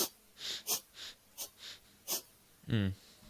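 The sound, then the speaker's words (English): A diaphragm breathing exercise demonstrated by a person: a series of short, sharp breath pulls in quick succession, ending in a brief voiced, moaning exhale. “So if I put that down like that. And so you pop your hands there. And then as you inhale, you go.”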